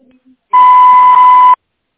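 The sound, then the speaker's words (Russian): A voicemail beep sounds before message recording begins: a single loud, steady tone lasting about one second, following a brief, faint sound, and then silence. “Вы можете оставить сообщение после звукового сигнала.”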